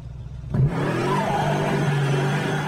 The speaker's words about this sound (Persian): جان با اتومبیلش تیکاف میکشه که 190 درجه میچرخه و در جهت عکس قرار میگیره.